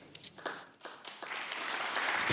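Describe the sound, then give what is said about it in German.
Hesitant applause after a speech begins as a few scattered, separate claps, then swells into steadier, denser clapping that grows louder toward the end. “Ja, du hast ja auch gespürt, Anna, wie zaghaft nach diesem Satz der Beifall begann, noch ein bisschen ungläubig und mit der Sorge, das dicke Ende könnte irgendwie noch kommen.”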